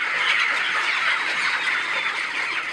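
Chickens clucking on a poultry-rearing farm in Khost province, Afghanistan: a dense, continuous chorus of many birds at a steady, fairly loud level, with no voices.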